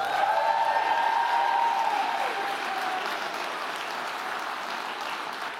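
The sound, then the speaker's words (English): An audience applauds as a speaker comes to the stage: full, sustained clapping that starts loudest and gradually settles over several seconds. “I want you to give a huge welcome to my dear friend LaMorris Crawford as he comes on stage to bring the word today. Give it up for LaMorris Crawford.”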